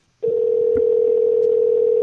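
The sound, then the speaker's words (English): A telephone dial tone plays while a call is being placed. The loud, steady, unbroken hum starts abruptly after a brief silence and continues to the end, with a few faint clicks underneath. “Come on, pick up the phone.”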